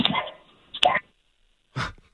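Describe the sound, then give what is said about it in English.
A dog wanting to be let outside gives a few short, sharp barks and yips, separated by brief pauses. “Dog wants out.”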